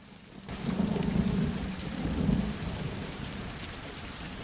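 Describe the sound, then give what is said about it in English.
Rain beats against a window in a steady, loud hiss that starts abruptly after a brief quiet moment, with a low rumbling underneath that swells and eases. “Rain falls against a window.”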